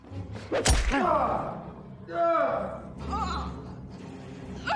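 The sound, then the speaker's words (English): A sharp thwack as a man is struck with a pistol, one hard hit near the start, followed by people talking. “Bill raises an eyebrow and Lloyd whacks him with a pistol.”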